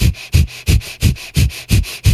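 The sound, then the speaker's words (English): Seven quick, sharp breaths are pushed in and out through the nose, each a short forceful rush of air, in a fast, even rhythm with no talking. “When I do this quick inhale and exhale through my nose, I'm not just cueing my abdomen, I'm also cueing my entire corset, my entire body to be able to make me do this.”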